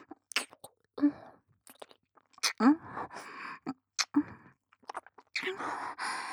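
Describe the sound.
Wet ASMR mouth sounds from a tongue licking an ear: many soft, irregular smacks, clicks and slurps, close and intimate, interspersed with quiet breathy exhales and short silences.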